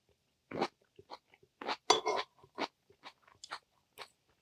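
Chewing on crunchy, lightly blanched komatsuna greens, with a series of crisp crunches at an irregular pace and short pauses between bites.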